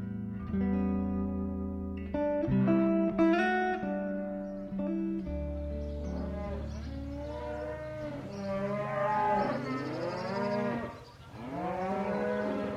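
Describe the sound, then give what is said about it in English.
Dairy cows mooing at milking time on a Dartmoor farm in England: many long, harmonic moos of varying pitch follow one another and sometimes overlap, some bending up or down, with no voices. “get your pail and buckets. It's milking time at Wingstone Farm in Manitin, England, where these ladies were recorded as part of the Sounding Dartmoor”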